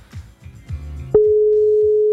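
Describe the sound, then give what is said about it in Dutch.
A telephone ringing tone plays while a call is placed: a single long, steady mid-pitched tone lasting about a second, after a few brief low sounds. “We gaan hem nog een keer proberen te bellen.”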